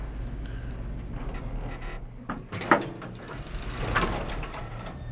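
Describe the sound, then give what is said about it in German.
An elevator door slides open with a low mechanical rumble, a sharp clunk, then a swelling sliding rush, and a high tonal sweep near the end. “Die Fahrstuhltür öffnet sich.”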